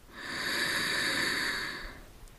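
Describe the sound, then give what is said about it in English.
One slow, deep inhale during a breathing meditation: a soft, airy hiss that swells and fades over about two seconds. It is faint and heard alone. “And then bring your attention to your breath. Deeply inhale”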